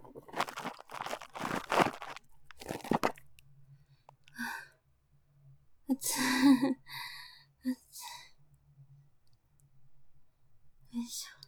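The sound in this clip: Aluminium foil being crumpled and crinkled: a few faint, scattered bursts of crackling alongside soft whispering and quiet speech.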